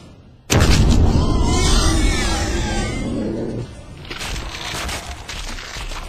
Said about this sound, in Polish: Została mi jeszcze jedna ognista bomba. Dobre i to. E, łap!